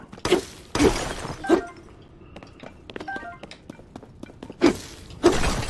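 Objects being smashed in an action-adventure video game: five loud, crunching shatter bursts, three close together and two more after a pause filled with softer clinks and debris rattles.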